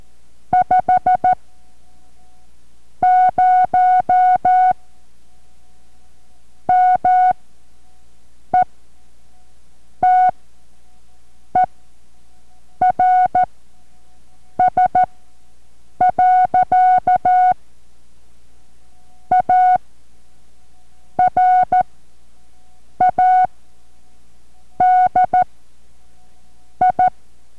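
Morse code practice sent at about seven words per minute: a single steady tone keyed in clusters of short dots and longer dashes, with clear gaps between characters and longer pauses between groups, and no voices.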